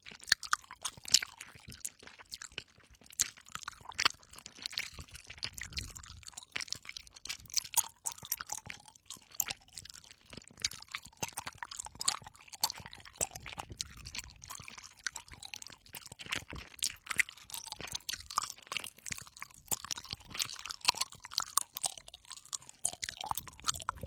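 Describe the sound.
Soft, chewy food is chewed up close, with many faint, moist squelching bites and crunches in a steady, irregular rhythm, quiet and without talk.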